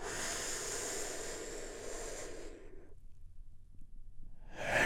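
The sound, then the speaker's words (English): A big, deep breath taken in and released during a guided relaxation, a long airy rush of breath that fades into near silence, then a fresh breathy swell at the very end. “just taking a big, deep healing breath. All together, here we go, and”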